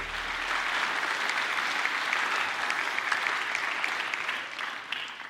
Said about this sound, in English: Life Center, would you put your hands together? Would you help me welcome Pastor Andy Rosas as he comes and brings the message?